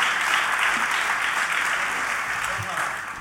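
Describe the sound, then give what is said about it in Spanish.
Audience applause at a blues festival: a dense, steady wash of clapping that holds loud throughout and eases slightly near the end, with some voices mixed in. “Muchas gracias Mario Elena, muy fuerte el aplauso por favor”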